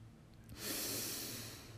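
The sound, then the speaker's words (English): A deep breath is drawn in through the nose, a soft, airy hiss that swells after a brief quiet start and holds steady to the end. No talking. “Now breathe in through your nose and feel your belly rise.”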